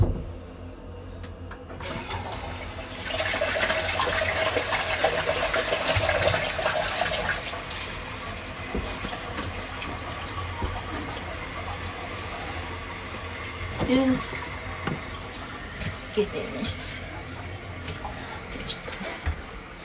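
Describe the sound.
Water poured out and running down a sink, starting as a sudden steady gush after about two seconds, loudest for several seconds, then continuing as a lower, even rush of running water with a few faint splashes.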